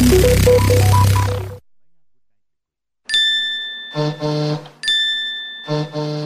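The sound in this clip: Phone message notification chimes sound twice after a short burst of fading music and a pause. Each alert is a bright ringing tone followed by two shorter, clustered chime pulses, all clear and loud.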